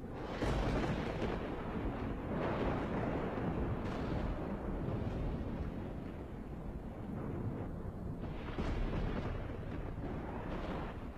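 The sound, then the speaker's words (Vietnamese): Thunder from lightning striking a kapok tree: a long, deep rumbling roar sustained for about eleven seconds, rising and swelling in rolling waves, fairly faint overall, with no voices. “Một tia sét rạch ngang trời, đánh thẳng xuống gốc gạo.”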